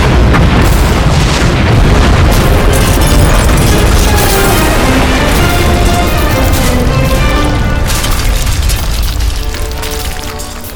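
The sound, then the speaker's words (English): Explosions from incoming weapons fire striking a starship in a space battle, heard as a loud, continuous, rumbling barrage layered with dense tonal sound, easing slightly toward the end. “Warning! Warning! Incoming weapons fire from Excalibur.”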